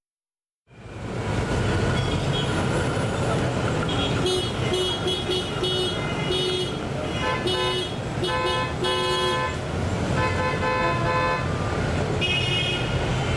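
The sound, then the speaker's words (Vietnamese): Car horns honk amid busy street traffic, many short and longer toots of different pitches overlapping above a constant loud roar of engines, continuing throughout. “Thưa quý vị, chúng ta vừa nghe những âm thanh phải nói là rất quen thuộc trên đường phố phải không ạ? Đó chính là tiếng còi xe.”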